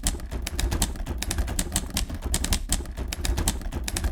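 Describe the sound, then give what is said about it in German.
A typewriter clatters as a book manuscript is typed in a study in the evening: many rapid, irregular keystrokes in a dense, steady run, with no voices. “verkriecht sich abends in sein Arbeitszimmer, um das Buch über Hamann fertig zu tippen.”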